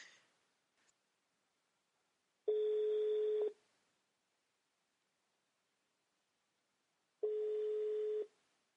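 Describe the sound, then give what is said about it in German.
Telephone ringback tone heard while placing a call: two long, steady, mid-pitched beeps of about one second each, separated by a long silence. “ich muss Nick anrufen”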